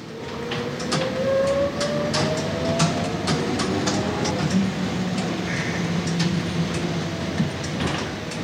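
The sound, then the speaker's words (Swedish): An old 1940s electric trolleybus hums along with a rising electric motor whine over a steady rumble, while rattling clicks and clatter recur throughout. “Det här ljudet som ni just hörde, det var en gammal trådbuss från 40-talet.”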